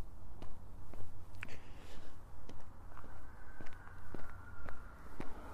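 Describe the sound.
Footsteps of a person on a Thursday run along a farm driveway toward a big hill: a steady, rhythmic series of soft, quick footfalls over a low, constant background hum.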